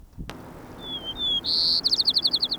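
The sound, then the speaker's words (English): White-crowned sparrow song: a few thin, high whistled notes, then a louder buzzy note and a rapid run of many trilled notes, clear and alone with no voices. “White Crown Sparrow A.”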